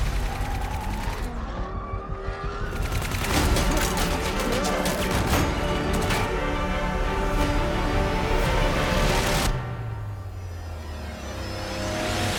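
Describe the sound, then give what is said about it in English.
Rapid gunfire from an action film scene, a long, loud, dense barrage of many shots lasting several seconds before cutting off sharply into quieter rumble. “Shots fired! Shots fired! All units, please respond.”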